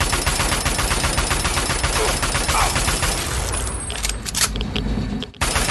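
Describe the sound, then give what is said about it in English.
Rapid automatic assault rifle fire in a video game during a fight with a sentry bot: dense, continuous, loud bursts of many shots with no pause, thinning slightly and briefly dropping out just before the end. “Oh, this assault rifle has just no... Oh, damn, sentry bot. Has no creep whatsoever. It holds its line of fire really nicely.”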